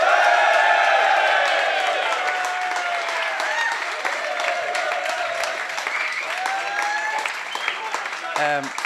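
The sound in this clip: An audience at a live sports show applauds to welcome a guest with dense, steady clapping that eases slightly over time, while a voice speaks over it.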